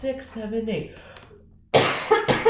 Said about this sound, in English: I need to cough. Hold on, we're gonna start after I cough.